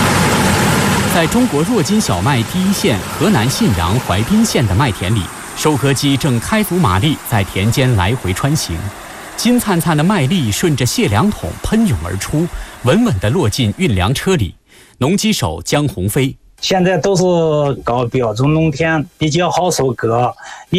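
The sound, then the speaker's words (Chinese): Combine harvesters at full throttle, crossing a wheat field during harvest, give a continuous engine drone. It sits under a steady speaking voice throughout, with a few short breaks near the end. “在中国弱金小麦第一线河南信阳淮滨县的麦田里，收割机正开足马力在田间来回穿行，金灿灿的麦粒顺着卸粮桶喷涌而出，稳稳地落进运粮车里。”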